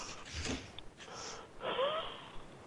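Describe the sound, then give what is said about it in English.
Labored, wheezing breathing of an old man: two drawn-out raspy breaths with a thin whistling tone, separated by a short pause. “He's got labored breathing, poor old chap.”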